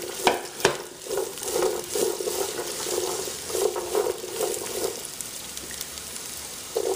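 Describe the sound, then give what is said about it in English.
Vegetables stir-fry in a hot pan with a steady, hissing sizzle broken by scraping stirring strokes. A low humming undertone fades out partway through, and the crackle continues alone with no voices. “I'm going to go ahead and increase the temperature just a little bit because, like I said, I just want to give it a quick stir fry here.”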